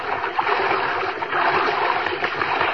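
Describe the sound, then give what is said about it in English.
Continuous splashing and churning water as someone swims out through the sea toward a raft just offshore, a busy rushing wash with irregular slaps and surges. “Go for an afternoon swim. Out to a raft just offshore. She's sitting there as you swim up.”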